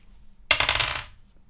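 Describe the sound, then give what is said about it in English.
A six-sided die rolls across a desk with a single brief rattling clatter that tumbles quickly and fades within about half a second. “I'm going to roll a d6.”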